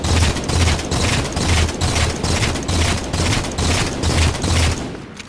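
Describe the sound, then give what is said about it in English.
Gunfire from a video game's guns: rapid, evenly spaced bursts of shots repeat in a steady rhythm, loud and punchy, with deep thumps under each burst. “throughout all the games, all the guns always sound different and they feel different too.”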